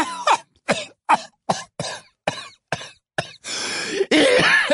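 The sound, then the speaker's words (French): A coughing fit: many sharp, hacking coughs in a fast irregular series, ending in longer, rasping throat sounds. The coughing is loud and stands alone, without speech. “Elle se laissa tomber dans son fauteuil en proie à une quinte de toux”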